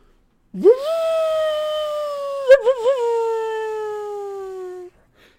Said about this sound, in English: before Kronos could strike, a dog's howl pierced the air somewhere behind the Titan's army.